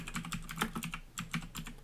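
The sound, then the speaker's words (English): Fingers type on a computer keyboard in a quick, uneven run of many light clicking keystrokes. The clicks are faint and heard alone, with no talk. “Finally you're gonna hear me type.”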